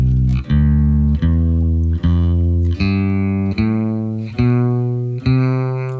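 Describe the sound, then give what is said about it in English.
An eight-tone scale played on an instrument: eight evenly spaced, sustained notes with a bright, buzzy tone rich in harmonics, each attack clearly separated and held at steady loudness. “The tetrachord, the eight-tone scale, he had me play it 1,492 times. Wow. But it was like this.”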